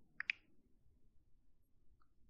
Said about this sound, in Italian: Clicco su Mi piace.